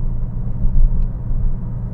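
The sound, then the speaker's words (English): Steady low engine rumble and road noise heard from inside a Porsche as it is driven, an even, droning hum without clear revving or gear changes and no talk. “So we're out driving around doing our chores, folks, like we are wont to do. Now, I realize I'm not supposed to be podcasting in this Porsche”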